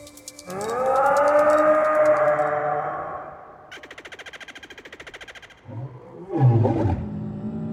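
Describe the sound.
Dinosaur roar sound effects: a long, loud, growling roar, then a harsher buzzing rattle, then a deeper rumbling roar that swells and fades. No voices are heard.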